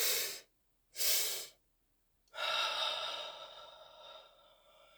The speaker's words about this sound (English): In through the nose, double. One more time.